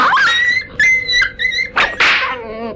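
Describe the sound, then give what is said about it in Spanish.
A dog yelps and whimpers after being struck by a whip. Several loud, high, wavering yelps sound on their own in quick succession, ending in a longer whine that drops in pitch. “El latigazo de Firenzeit alcanzó al perro, que se ocultó bajo el carro.”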